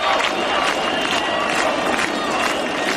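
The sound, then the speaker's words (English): Crowd noise from a nightly street protest in Albania against a planned luxury property and hotel resort development, a dense, loud, unbroken wash of many voices with scattered shouts rising out of it throughout. “The sounds of protests in Albania this week.”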